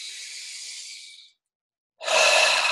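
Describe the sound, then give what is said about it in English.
Breathing in through the nose and out during a guided group breathing exercise: two airy, hissing breaths separated by a short silent pause, the second louder and fuller. “Breathe in the nose. Let it go. Breathe in.”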